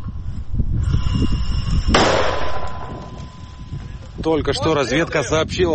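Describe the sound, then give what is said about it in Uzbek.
Mortar fire from a unit shooting at enemy saboteurs in the war in Ukraine: one sharp, loud blast bursts out over a rumbling background, and a voice speaks afterwards. “Minomyotchilar bo'linmasi qurollarni o'qlamoqda. Diversantlarni orqaga surish uchun ularga qarata o't ochmoqda.”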